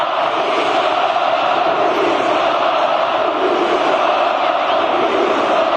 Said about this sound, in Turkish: Siyah beyazlı taraftarlar uzun süre alkış tuttu ve tezahüratlarda bulundu.